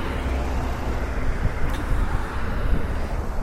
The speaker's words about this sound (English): Alright, I'm at the bus stop.